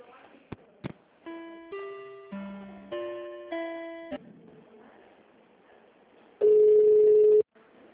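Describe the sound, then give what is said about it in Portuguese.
Telephone call being transferred to the operator: a couple of line clicks, then a quick run of stepped electronic tones, a short pause and one long, loud, steady ringing tone that cuts off abruptly. “Eu vou passar para o telefonista e ela direciona a sua ligação, tá?”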